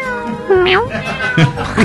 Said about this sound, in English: a talented trio of black and white cats performing a dance involving top hats